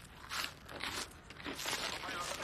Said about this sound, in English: He slowly walks towards her, holding out the cheese puffs. She grabs a handful. Tastes good, huh?